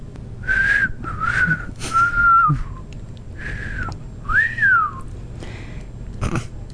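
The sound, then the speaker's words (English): A person whistles a series of short, clear, high notes. Most are held fairly level and one arches up and then down, over a faint low background hum. “Ricky whistled and smiled at Fred.”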